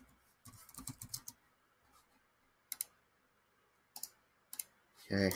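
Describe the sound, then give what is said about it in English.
Computer mouse right-clicks made while creating a new folder: faint, quick plastic clicks in short bursts, a rapid cluster first, then pairs of clicks spaced apart. “So I'm going to right-click and go to new folder.”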